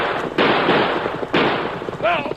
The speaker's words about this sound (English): Guns will be blazing.